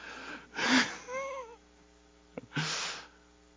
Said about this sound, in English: Everyone, take a deep breath and go, oh, he's done.